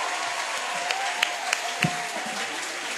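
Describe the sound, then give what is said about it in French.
Worship audience applauding and cheering in praise of Jesus: continuous dense clapping with a few sharper individual claps and a faint, sustained vocal tone in the middle. “On acclame le Seigneur. Acclame encore.”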